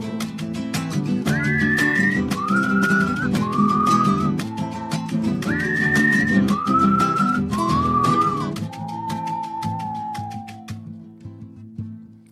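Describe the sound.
A person whistles to a bird at night in a series of short, clear melodic phrases, each sliding slightly, with the last note held longer and falling. The whistling plays over a steady musical backing.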